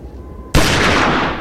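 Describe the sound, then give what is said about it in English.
A single pistol shot fired by the poet Pushkin in a snowy duel. It bursts abruptly after a faint hum, hits loud and sharp, and then rings out in a long, slowly fading tail. “The poet fires.”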